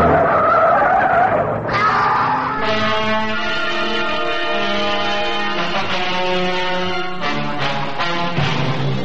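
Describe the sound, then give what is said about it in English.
Tires squealing as a car skids, a sound effect from a radio drama: loud, sustained screeching with a wavering, shifting pitch over a low engine rumble, continuing without a break throughout. “Oshawe police recovered the bodies of Melvin Harper and Charlie Franklin. But Edward Connolly survived the crash.”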